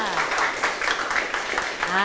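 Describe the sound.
Brief burst of applause from a class for a classmate, many hands clapping quickly at a moderate level, with a voice heard over it.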